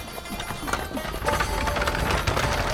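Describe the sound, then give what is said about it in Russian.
A horse-drawn chariot approaches: quick, dense hoofbeats and a rolling, rattling rumble grow louder partway through. “О, навстречу путнику едет повозка. Колесница.”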